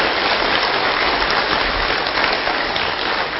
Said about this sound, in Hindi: ताली बजाना तो आता है ना, कि वो भी भूल गए?